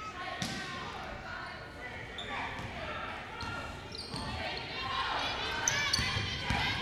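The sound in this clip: Basketball dribbling on the court during a Southern Union vs Gadsden State women's college game, several bounces thudding under steady crowd noise and voices.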